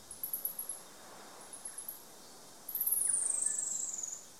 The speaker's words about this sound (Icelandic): Hér heyrum við trjáprílara, syngja í heimkynum sínum í skóglendi Nýja-Sjálands.